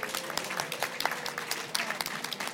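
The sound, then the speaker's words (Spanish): Applause from a crowd at an International Women's Day gathering: a dense, steady patter of many hands clapping that stays fairly even in loudness throughout. “mandarle desde aquí a nuestra comandante Ramona, pues un fuerte aplauso”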